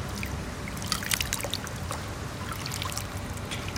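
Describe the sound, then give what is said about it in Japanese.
Feet move about in lukewarm water, producing soft, continuous trickling and light splashing with a few slightly sharper splashes, fairly quiet throughout. “湯みたいな水に足入れてるんですけど”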